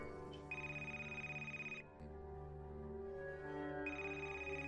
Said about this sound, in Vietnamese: Bác Toàn vừa tắt máy cuộc gọi với thầy ba thì điện thoại lần nữa đổ chuông